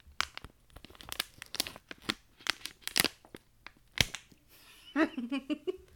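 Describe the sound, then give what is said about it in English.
A package of fresh dill pickle snacking cuts is torn open in many sharp, crinkly rips and crackles of varying loudness, followed near the end by a voice speaking. “Fresh dill pickle snacking cuts. These aren't chips, these are cuts. I like those pickles. They're good. This is I pre-tore all the other ones. This one you're getting a fresh tear.”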